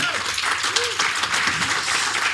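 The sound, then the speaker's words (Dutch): Audience applause: a dense wash of clapping that holds steady and fairly loud for the whole stretch, with a voice briefly audible over it. “Applaus voor Wouter Tavecchio.”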